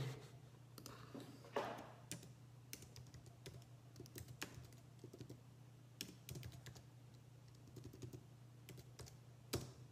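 Typing on a computer keyboard makes many quick, irregular key clicks, faint overall, over a steady low hum.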